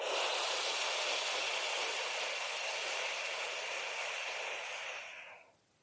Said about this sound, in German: Mach nochmal. Einmal, zweimal einatmen. Und dann.